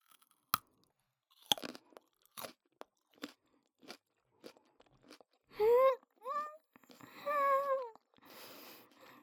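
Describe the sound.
Crunchy chewing of a sweet carrot, with a series of sharp, separate bites and crunches spaced out over several seconds. A voice then speaks a few short phrases near the end.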